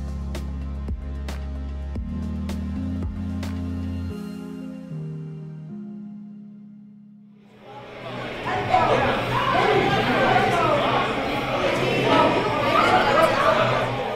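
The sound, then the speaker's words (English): Crowd chatter fills a brewery taproom in Hammond on a busy Friday night, with many overlapping voices forming a loud, continuous murmur through the second half, after a few sustained tonal notes and a short lull. “Hear that? It's the sound of a Friday night in the tap room at 18th Street Brewery in Hammond.”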